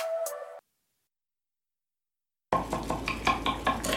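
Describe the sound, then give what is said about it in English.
Clinking of dishes and cutlery at a dinner: a short burst of clatter, a gap of silence, then a run of light clinks and scrapes. “These are the sounds of a dinner. A dinner that almost didn't happen. A dinner now served, thanks to people like you.”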